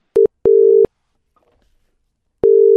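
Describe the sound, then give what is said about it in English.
A telephone line tone sounds while a call is being dialed: a steady, mid-pitched tone in three clean bursts, first a short one, then a longer one, then a pause of near silence before a third long burst. “So we'll dial him up. He doesn't know. So here we go.”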